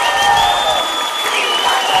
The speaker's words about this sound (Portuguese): Um aplauso de vocês.